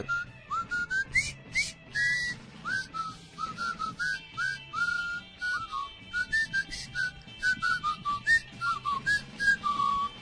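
A person whistles a brisk, jaunty march tune alone, in clear, bright, fairly high notes with a steady marching rhythm. The melody runs on for about ten seconds without talk.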